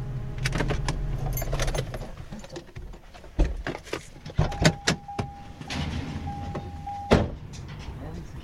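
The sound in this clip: A green gate being opened at a house: metallic clanks and rattles, then a sustained squeaking whine from the hinges in two stretches, with voices talking around it.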